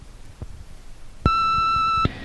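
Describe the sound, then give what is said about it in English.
A voicemail beep sounds as a single steady electronic tone lasting under a second, clear and bright, after a stretch of low background noise with faint thumps. “Leave your name and number at the beep.”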